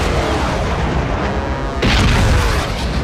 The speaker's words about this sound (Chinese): 358发射导弹，